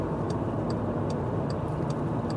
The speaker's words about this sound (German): Erstaunlich viel los um die Uhrzeit hier auf der Straße. Aber klar, die fahren jetzt alle zur Arbeit